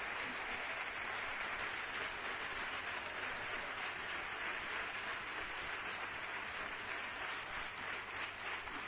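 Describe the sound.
Audience applause offered in tribute to a neighborhood folk club, a dense, even roar of clapping that holds at a constant level for the whole stretch, with no voices.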